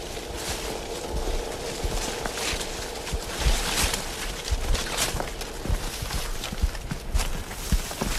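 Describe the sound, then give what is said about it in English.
Wet footsteps of someone walking through a slough, many irregular sloshing, squelching steps over a constant watery rustle, uneven in rhythm and moderately loud. “So that's pretty characteristic noise, is walking through the slough.”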